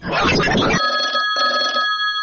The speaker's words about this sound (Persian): لطفا یه زنگ تلفن بده که بریم بازی کنیم.